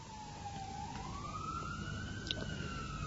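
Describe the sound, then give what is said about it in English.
An ambulance siren near a hospital: a faint, sustained wailing tone that dips slightly, then climbs slowly, over steady low background noise. “we're on the line to Shari Tzedek Hospital, so ambulances are part of the background music here”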